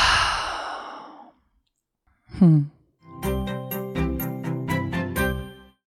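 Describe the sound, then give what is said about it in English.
Breath is pushed out through an open mouth in one long, airy exhale lasting about a second. After a pause, a brief sound and then a gentle chiming tune follow. “Let's open the mouth and exhale.”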